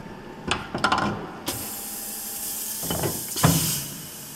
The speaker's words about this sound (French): Ça, c'est une machine qui a été réalisée pour faire la sérigraphie.